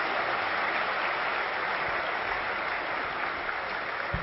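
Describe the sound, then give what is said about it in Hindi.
Audience applause as three senior brothers present bouquets to Baba. Steady, even clapping runs without a break, with a couple of low thumps near the end. “जोर से ताली बजाएंगे और जोर से”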